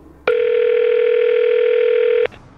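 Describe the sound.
Steady telephone tone from a phone handset as a call is dialed: one unbroken, loud, level hum that holds for about two seconds and then cuts off, with nothing else around it.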